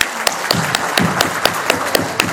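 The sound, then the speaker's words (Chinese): Audience applause: a dense bed of clapping with sharp, regular claps standing out in a steady rhythm about four times a second, at an even, moderately loud level. “啊，我们为他们鼓掌，好吧？”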